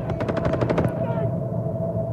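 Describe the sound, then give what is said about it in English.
Rapid rifle fire in a World War II battle on a bridge in a war film. A fast burst of many sharp shots fills the first second, then fades over a steady hum. “In front of him, Ryben, firing his rifle.”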